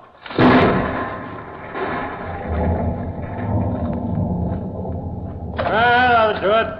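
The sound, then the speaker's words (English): Explosive blasting in a tunnel: a sharp, heavy boom bursts out, then settles into a long, low rolling rumble that carries on for several seconds before swelling again near the end. “Okay, everybody, clear. We're blasting. Blasting, George. Go ahead, Hagen. All right, let her go.”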